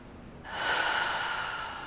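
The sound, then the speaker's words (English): A person breathes in slowly during a guided relaxation exercise: a steady, airy rush of breath that begins partway through, swells, and holds for over a second before easing slightly, with no talking. “Just breathe in.”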